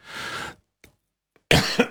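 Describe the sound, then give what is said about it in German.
Harsh coughing from someone choking after swallowing wrong, two loud bursts separated by a near-silent gap that holds a couple of faint throat sounds. “Entschuldigung, jetzt habe ich mich verkutzt.”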